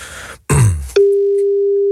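A telephone call tone sounds while a number is dialed: a brief rustling burst, then one steady, loud, unbroken tone holding an even pitch for about a second before cutting off.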